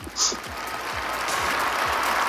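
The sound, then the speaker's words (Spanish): A large crowd in St. Peter's Square applauds after the Easter Sunday papal blessing, a dense, steady wash of clapping that swells slightly and then holds. “Y esos aplausos de toda la gente allí congregada”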